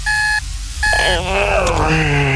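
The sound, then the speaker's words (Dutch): An alarm clock beeps with two sustained electronic tones separated by a short pause. Busier, changing sounds follow the beeps. “wekker gaat en gaat.”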